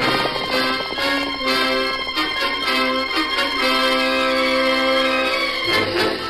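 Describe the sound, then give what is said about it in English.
Thundering hoofbeats of a galloping horse named Silver, a rapid, steady clip-clop running under loud orchestral music for the whole stretch. “From out of the past come the thundering hoofbeats of the great horse Silver.”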